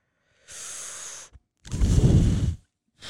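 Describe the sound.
Loud breaths are blown straight into the microphone as rough, noisy gusts: a softer blast, a tiny puff, then a heavier, louder rushing burst, and the start of another at the end.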